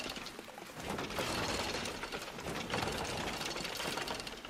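A shrine mechanism in a video game gives off a dense, rapid clicking and rattling, like fast ratcheting gears. It runs continuously and steadily at a fairly even level throughout.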